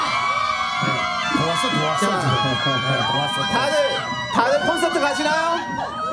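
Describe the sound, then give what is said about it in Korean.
A studio crowd of fan club members shouts and cheers, a loud, unbroken roar of many excited voices with whoops rising above it. “화기애 화기 소리 질러!”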